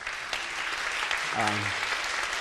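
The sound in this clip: Audience clapping for a graduate, a steady, dense applause that fills the whole stretch, with a voice briefly heard over it partway through.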